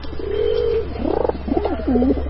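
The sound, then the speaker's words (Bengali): Pigeon cooing in the distance near a house's rooftop in late afternoon: a few soft, warbling low coos, one long drawn-out note followed by shorter rolling ones, over a steady low hum. “দূরে কোথায় একটা পায়রা ডেকে উঠল।”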